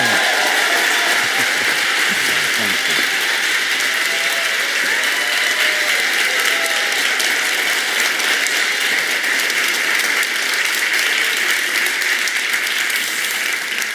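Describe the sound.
A church audience on Queens Boulevard gives a guest speaker a warm welcome with loud applause. The clapping is sustained and even, with no let-up through the whole stretch.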